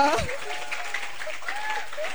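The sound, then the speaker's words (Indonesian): Audience applause at a school talk on traffic discipline for students, as the next presenter is introduced: a steady wash of clapping with a voice speaking over it throughout. “Tepuk tangan ya dulu.”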